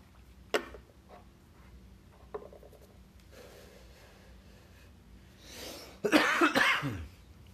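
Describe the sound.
Coughing follows the first drag of a morning cigarette: two isolated coughs are spaced apart, then a louder cluster of harsh, rasping coughs comes near the end.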